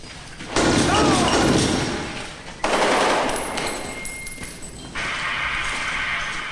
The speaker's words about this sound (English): Three rebels slowly walk toward the group, holding their hands up in surrender. The soldiers open fire on them.